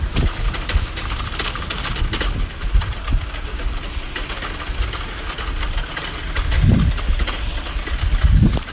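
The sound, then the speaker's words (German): Wheels rattle over cobblestone paving on a sidewalk with a continuous fast, buzzing clatter. Deeper bumps and thumps swell up at a few points as the wheels roll on. “Ich ratter hier über das Kopfsteinpflaster, welches sich auf dem Gehweg befindet.”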